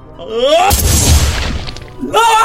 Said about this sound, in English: not hesitating for an instant as he jammed it into his mouth and pulled the trigger